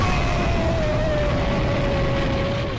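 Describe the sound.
An explosion sound effect, meant to suggest a head exploding, rendered as a loud, steady roaring rumble with a thin tone sliding slowly downward. It holds at an even level throughout, fading only slightly at the end, with no speech.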